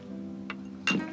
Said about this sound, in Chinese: 也行吧，干杯吧啊。